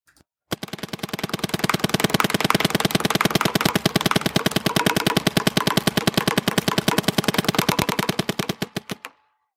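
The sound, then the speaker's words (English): An expensive paintball gun fires a rapid, evenly spaced stream of sharp popping shots for about eight seconds, loud and mechanical in its regularity, before stopping abruptly. “Here's what one of the expensive paintball guns sound like.”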